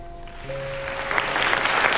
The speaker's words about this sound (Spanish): Los miembros del grupo de Donnie, Tim, Susan y Anu aplauden entre el público.